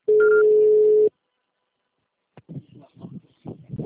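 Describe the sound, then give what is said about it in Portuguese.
A long, steady electronic beep marks the start of a voicemail recording after a Portuguese-language telephone greeting. The single sustained tone lasts about a second, then falls silent before a person begins speaking. “Pode deixar seu recado, você só será tarifado após o sinal.”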